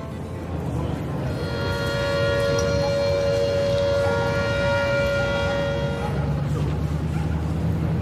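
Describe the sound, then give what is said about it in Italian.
A chemical factory siren that once marked the start and change of workers' shifts sounds a long, steady tonal wail. It holds for several seconds over a low background rumble and then dies away. “Il suono che avete appena sentito è quello della sirena che un tempo scandiva l'inizio e il cambio turno dei lavoratori della Caffaro Chimica.”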